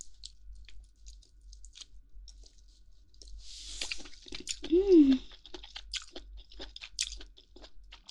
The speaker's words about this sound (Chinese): 果然比脸上的肉都要脆呢。